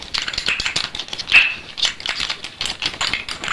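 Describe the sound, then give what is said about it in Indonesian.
Eggs being beaten for frying, many quick, rattling tap strokes in an uneven rhythm that continues throughout with no talk. “Kocok telur ini, terus telurnya digoreng.”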